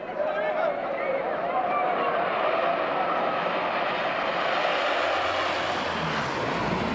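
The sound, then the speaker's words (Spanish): A KC-130 Hercules military transport aircraft drones with a broad, steady engine roar at an air force base event, the sound holding fairly constant with a faint high whine rising near the end. “Así como la actuación de la banda de la Fuerza Aérea, el avión KC-130 Hércules fue una de las atracciones de la jornada”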